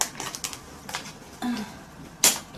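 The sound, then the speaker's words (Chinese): A sheet face mask's packaging is torn open with a few quiet crinkles and small clicking rips, ending in one sharper tearing burst near the end. “好了，那现在我要打开包装，我要把它撕开。”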